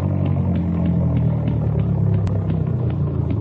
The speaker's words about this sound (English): Oh, boy, they hit a tire. Watch it, Steve. We're going into brush.